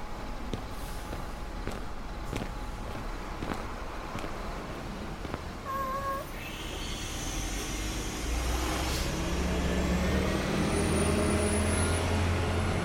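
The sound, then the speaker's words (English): Ambience at Wichita Airport: a steady, low rumble of engines and traffic with faint scattered clicks, a brief warbling tone partway through, then a louder low roar with a thin high whine rising above it. “Wichita Airport.”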